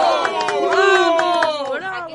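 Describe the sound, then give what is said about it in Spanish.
A thunderous ovation from tram passengers in a radio drama, with several voices cheering and shouting loudly over scattered clapping. “Y cuando Orsini cesó de hablar, recibió una ovación estrepitosa.”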